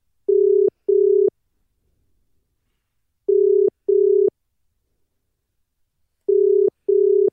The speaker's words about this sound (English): So let's give him a call now.